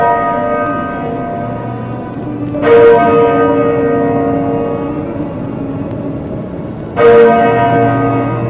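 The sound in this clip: A stolen parish church bell striking twice, with the strokes a few seconds apart. Each loud, clanging stroke leaves a long ringing hum over a steady low background rumble.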